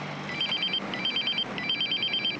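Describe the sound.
A telephone rings with a trilling, warbling electronic bell in three short repeated bursts, fairly quiet over a steady background hiss.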